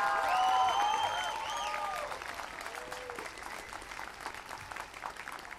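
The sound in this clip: Applause from a rally crowd welcomes a student environment leader to the stage. It starts loud, with whistles and whoops over dense clapping, then gradually tapers to thinner, scattered claps.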